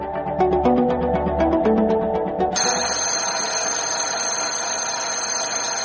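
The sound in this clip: An electric school bell rings with a continuous bright metallic clang. A quick run of short, pulsing tones comes before it.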